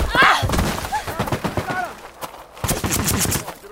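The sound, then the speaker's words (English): Gunfire from guards shooting rattles in rapid, overlapping bursts of sharp cracks and thuds. Voices are mixed in with the shots. “The guards are shooting at someone over there.”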